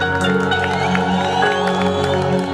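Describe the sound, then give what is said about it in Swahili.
Church audience cheering and clapping for Jesus: a loud, continuous wall of crowd noise with whoops and shouted cries that holds steady throughout. “Bidia Yesu makofi mazuri. Wakunia Yesu kelele.”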